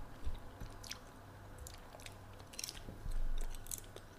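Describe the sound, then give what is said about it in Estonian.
Someone chewing and eating shrimp, a string of faint, moist crunches and squishy clicks at irregular intervals over low background hiss, with no talk. “ma arvan, sest just sööb krevette”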